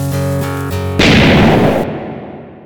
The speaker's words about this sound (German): Und bevor du wegrennst, wird die Hütte gesprengt.